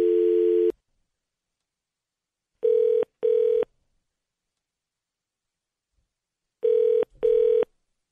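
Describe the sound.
A telephone is dialed, with one steady, even-pitched tone followed by two double-pulse ringing tones separated by silence, clean and alone.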